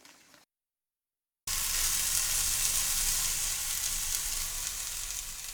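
Chicken sizzles in a non-stick frying pan cooked without oil, the loud, steady crackling hiss starting abruptly after a second of silence and easing slightly toward the end.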